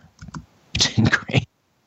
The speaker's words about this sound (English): He can't hear us, so I'm just going to type him a message.